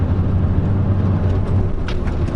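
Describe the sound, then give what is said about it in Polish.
A modified 1.9-litre diesel car accelerating gives a continuous low, steady engine drone with road rumble beneath it. No talk is heard over the sound. “Przepięknie przyspiesza. Wow. Biorąc pod uwagę, że to jest 1.9 w dieslu”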